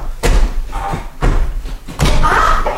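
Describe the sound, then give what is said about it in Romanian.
A door is forced and broken open with three heavy, loud thuds spaced roughly a second apart, each a booming slam with a short wooden rattle after it. “ai spart ușa. Nu trebuia să faci așa ceva.”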